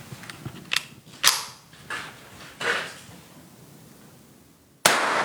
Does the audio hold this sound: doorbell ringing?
no